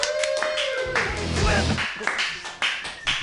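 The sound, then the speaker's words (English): Audience clapping welcomes a comedian to the stage at a live comedy show. Brisk, steady applause runs for a few seconds, mixed with a voice and some tonal sound. “Hey, welcome to the stage, your very first comedian of the night. Everybody, put your hands together.”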